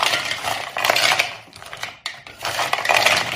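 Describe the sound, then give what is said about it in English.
Frozen shrimp being mixed with seasoning in a bowl give a steady, hard rattling and clattering, like small solid pieces knocking against the bowl, in two busy stretches split by a brief lull. “Excuse the noise, it's because the shrimp's frozen.”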